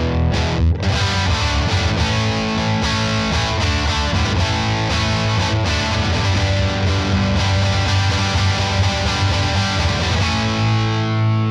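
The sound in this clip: An electric guitar through an amp with the gain turned all the way down, playing chords with a light, gritty edge that ring out steadily and fairly loud for about eleven seconds, with no talking.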